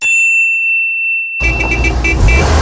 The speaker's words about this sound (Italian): Ehi, quanta fretta, dove corri? Porto la mia Fiat 500 a fare il tagliando all'Officina Garda.